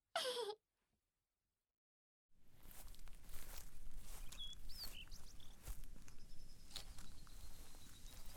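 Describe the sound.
Footsteps walk steadily through a garden outdoors, making many crunchy steps in a continuous rhythm. Faint bird chirps sound above them, and there is no talking.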